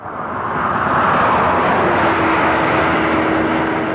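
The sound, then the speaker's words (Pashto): Road traffic on the Kalat–Quetta–Chaman national highway in Balochistan: a steady vehicle roar swells in at the start and holds, with a low, even engine hum running through the second half. “دا د کلات کوټي چمن ملي سړک دی چې اوس په دې سړک د ساتونو سفر په دقیقو کې تیریږي.”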